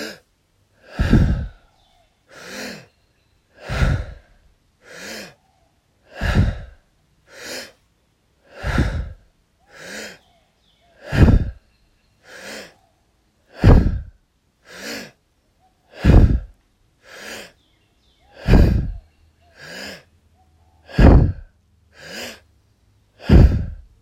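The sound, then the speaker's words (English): Steady breathing in and out through the mouth during a breathwork exercise: many even, loud breath cycles at a quick, regular pace of roughly one per second or a little slower, with no talking. “taking a deep inhale through the mouth. Exhale through the mouth. Inhale. Exhale. Continuing with about a breath per second.”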